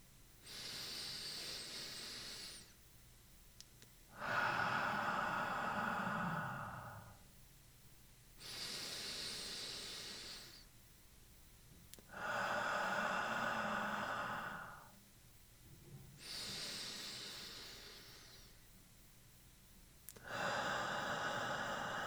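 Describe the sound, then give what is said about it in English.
Slow breathing exercise with inhalations and exhalations of about three seconds each. Six soft, airy breath phases alternate, with short pauses between them, and no other sound. “Each inhalation should last about 3 seconds, and each exhalation should last 3 seconds as well. You can breathe along with me.”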